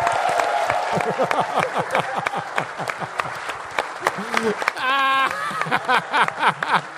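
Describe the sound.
Audience applause at a comedy show, uneven bursts of clapping mixed with laughter and people talking over it.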